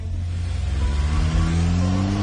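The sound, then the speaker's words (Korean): A taxi's car engine hums low and steady, its pitch climbing gradually as it revs, with no talk over it. “택시 문이 열리자 도도는 가방을 안에 넣고 탔다. 그리고 기사에게 영경로로 가달라고 차분하게 말했다.”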